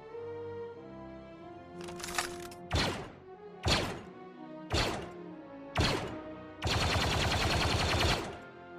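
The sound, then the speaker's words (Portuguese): Gunshot sound effects in a tabletop role-playing game session: a series of sharp, punchy blasts at fairly even intervals, ending in a longer sustained burst of noisy gunfire. “Escuta o tiro e o gritinho do Pateta”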